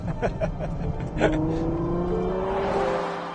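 Ferrari 812 GTS V12 engine revving: a loud, continuous, throaty drone whose harmonic tone climbs steadily as the revs build, ending in a raspy, higher-pitched howl.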